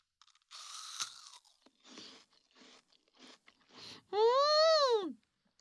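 Crunchy food bitten and chewed in a few crisp crunching bursts, followed by a drawn-out hummed vocal sound that rises and then falls in pitch.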